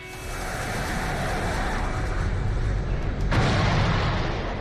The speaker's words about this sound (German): Die Moneda liegt unter Dauerfeuer. Panzer fahren auf, Scharfschützen auf gegenüberliegenden Dächern, Allende und seine Getreuen kämpfen einen aussichtslosen Kampf.